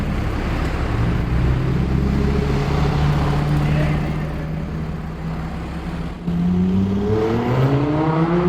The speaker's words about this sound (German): Was ihr da gehört habt, war ein weißer Lamborghini.